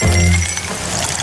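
Lipton Iced Tea Sparkling being poured: a loud, steady hiss of fizzing liquid with faint clinks, lasting the whole moment.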